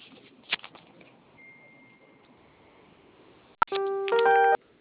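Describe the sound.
A telephone keypad tone sounds as the zero key is pressed during an automated call. A short sharp click is followed by a steady dual-pitch beep lasting about a second over quiet line noise.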